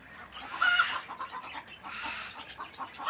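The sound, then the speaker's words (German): Many budgerigar pairs in a breeding aviary at an animal park, a continuous busy chatter of chirps and squawks with a few sharp high whistles rising out of it, fairly loud and with no talking. “Viele Wellensittichpaare bedeuten im Jaderpark auch viel Nachwuchs.”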